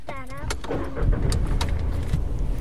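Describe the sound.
A car on a long drive home at dusk: a steady low engine and road rumble inside the car, with a few faint clicks and knocks above it.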